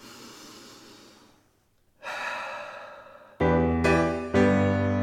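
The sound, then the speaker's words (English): Deep, slow calming breaths, a few breathy inhalations and exhalations with a short pause between, the later breaths louder and fuller, with no talk. “I think I need to lie down. I think that'll calm me down and breathe.”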